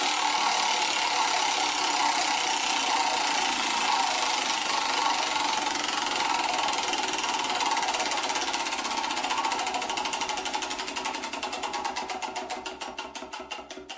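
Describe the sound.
An online prize wheel spins with a fast, dense ticking that blurs into a continuous rattle, then slows into distinct, more widely spaced clicks toward the end. The sound is steady and fairly loud, with no voices.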